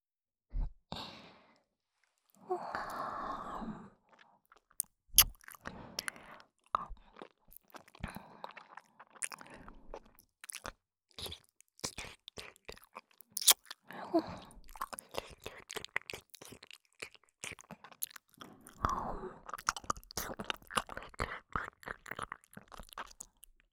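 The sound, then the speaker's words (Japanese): ASMR ear licking: many soft, wet clicks, smacks and slurps in an irregular stream, very quiet and close, broken by a few breathy sighs. “体もほてってるからすっごい舐めやすい。お耳の中ほっかほかでとっても美味しいですよ。”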